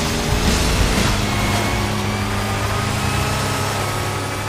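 A racing car's engine runs at full throttle in fourth gear with a steady, loud droning roar that barely changes in pitch across the whole stretch.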